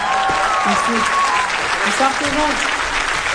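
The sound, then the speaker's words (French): An audience applauds to greet a guest at a live show. The clapping is dense and loud and continues through the whole clip, with some crowd voices mixed in. “Beaucoup de bruit s'il vous plaît pour Oussama.”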